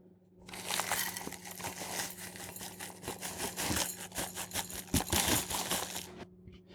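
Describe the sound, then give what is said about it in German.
Crinkling and rustling as 125 grams of ground hazelnuts are weighed and poured into a chocolate mixture, a dense, continuous scratchy texture lasting several seconds, louder toward the end, with no voices. “Als nächstes kommen 125 Gramm gemahlene Haselnüsse, die ihr auch abwägen könnt, und zur Schokimasse hinzugeben.”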